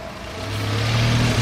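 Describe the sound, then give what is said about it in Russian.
A car drives past with a steady engine drone that grows louder and slightly higher over a moment, with no voices. “Миша сидит на заднем сиденье, машина проезжает мимо Димы.”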